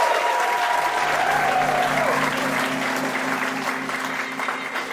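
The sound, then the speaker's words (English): Sustained audience applause for contestants at a live comedy game show: a thick, even wash of clapping that slowly tapers off toward the end, with a voice briefly heard over it early on. “Let's please give them all one more hand. Great job.”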